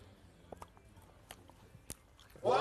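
Soft chewing of sour plum cake, with a few faint, moist bites and smacks spaced across a quiet stretch and no talk over them.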